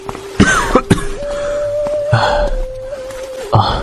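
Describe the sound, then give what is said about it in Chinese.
A man coughing hard into his sleeve while doubled over: a series of harsh, forceful bursts spread across the moment, with a steady tone sustained underneath. “他刚一走，梅长苏就用衣袖掩口咳得弓下了身子。”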